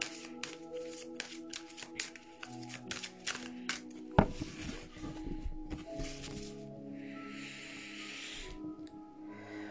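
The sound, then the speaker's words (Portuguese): Cards are drawn from a deck during a card reading. Many soft papery slides and flicks, with one sharp slap near the middle. “Fiquem atentos que eu vou tirar aqui umas cartas para todos nós”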